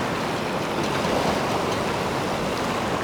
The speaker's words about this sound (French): Voici donc la marée montante.